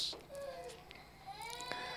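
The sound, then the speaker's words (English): A child cries in a series of faint, wavering wails, quiet and rising and falling in pitch, with low background sound throughout. “That child crying is reminding me of Joshua.”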